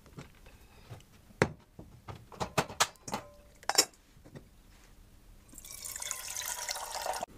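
Water runs steadily from a tap, filling a pot to be boiled during cooking, after several light clinks and drips from handling cookware. The rushing flow starts late and holds a constant level to the end.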